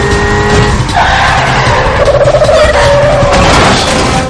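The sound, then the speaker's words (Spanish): Tires screech as a car brakes hard and spins around during a chase past SWAT cars in the 2013 action film El Último Desafío: a loud, sustained squeal over a roaring engine. “Alcanza a los coches del SWAT, acelera, los esquiva y los adelanta. Frena en seco, da media vuelta y sigue circulando marcha atrás.”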